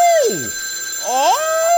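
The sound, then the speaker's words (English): A loud electronic telephone ring, heard alone, made of tones that sweep downward and then glide back up over a steady high buzzing tone. “I don't like it when that phone rings. It's just so loud, and it just scares me.”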